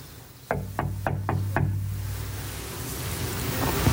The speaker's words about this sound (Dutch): Ze zijn er wel en ze hebben geen bel. Dus ik moet even heel hard kloppen.